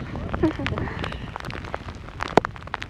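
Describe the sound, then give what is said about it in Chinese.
Hail pelts the ground and strikes the recorder during a sudden storm near the Jianggudiru glacier at the Yangtze source, a dense, irregular patter of sharp ticks and knocks with a few louder hits. “这地马上就白了哈。 哎，这1分钟不到了， 1分钟不到，录音机上现在全是冰雹。”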